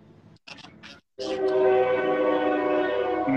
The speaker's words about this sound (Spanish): Está, está pasando el tren